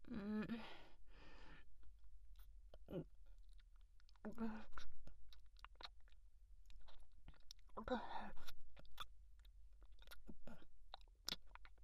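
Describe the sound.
Faint chewing while eating: many small, irregular wet clicks and smacks, with a few soft breathy vocal sounds mixed in.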